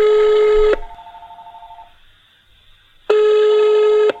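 Telephone dialing a call: a long, loud electronic tone, then a softer pulsing tone that fades out, then a second long tone of the same pitch. No voices are heard.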